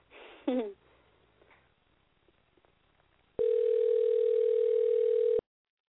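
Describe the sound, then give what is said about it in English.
A telephone dial tone sounds while a guest is being called. A single steady, mid-pitched continuous tone holds for about two seconds on its own and then cuts off abruptly. “I think this is my first time actually dialing a guest on the show.”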